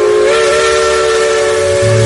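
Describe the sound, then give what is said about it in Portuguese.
Steam locomotive whistle, from a train climbing through mountains, sounds as one loud, steady, sustained tone with breathy steam hiss and no break for the whole clip. “Aí o nosso trem, a nossa locomotiva, a nossa Maria Fumaça rasgando as montanhas de Minas, rasgando as montanhas das Gerais.”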